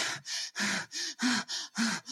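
A person imitates nervous breathing through the mouth: a quick run of about seven sharp, breathy in- and out-breaths in a panting rhythm, each separated by a brief pause.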